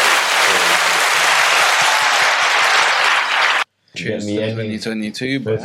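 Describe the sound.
A round of applause from a group, dense and steady for several seconds, cuts off abruptly. After a brief gap, people talk.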